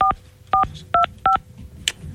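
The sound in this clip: Telephone keypad tones sound as a number is dialed: four clear, evenly paced dual-tone beeps, each a brief steady pitch, followed by a faint fifth tone.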